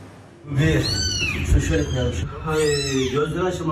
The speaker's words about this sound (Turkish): Zemin altında mahsur kalan 3 yavru kedi sağ olarak kurtarıldı.